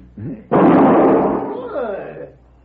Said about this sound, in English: You just shot the gun from my hand.